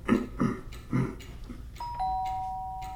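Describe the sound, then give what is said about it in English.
A doorbell rings from inside a house as a two-tone electronic chime. The second, lower note sustains and slowly fades, after a few dull, low thuds. “Yes, ringing the doorbell from the inside.”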